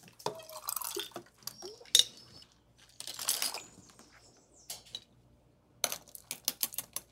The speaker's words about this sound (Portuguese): Na jarra com a bailarina, que é essa colher aqui de bar. Vou botar aqui para ficar bem bonito.